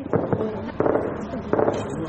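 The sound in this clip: Gunfire at night around Tarinkot city: a few sharp, cracking reports in irregular bursts, each followed by a short rumbling tail, over a steady low background.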